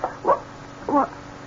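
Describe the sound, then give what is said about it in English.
A dog barks twice, with two short mid-pitched barks spaced about half a second apart over a quiet background. “now you stop your barking”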